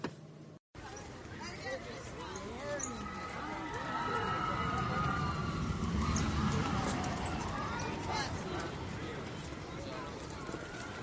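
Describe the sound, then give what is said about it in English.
Expedition Everest roller coaster at Disney's Animal Kingdom: a continuous rumble of the ride with swooping, rising and falling screams from riders, steady and loud throughout. “Of course, that's the sounds of Expedition Everest.”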